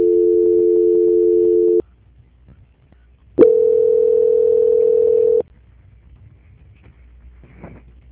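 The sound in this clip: A telephone tone plays during a call transfer: two long, steady, low-pitched tones of about two seconds each, separated by a silent gap, with the second tone slightly higher than the first.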